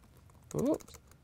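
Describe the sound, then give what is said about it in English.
Typing on a computer keyboard to enter a search in an app's settings screen, a short dense burst of keystrokes standing alone against quiet background noise. “So I'm going to type in a search here.”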